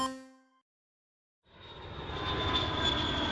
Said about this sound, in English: we cut to the Port Gala Airport, one of the only commercial airports in the Appalachia region. It's well attended and well used, but nothing too exciting.